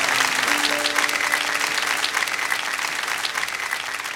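Audience applause welcoming a performer to the stage at a live show, a loud, steady wash of clapping that holds throughout without a break.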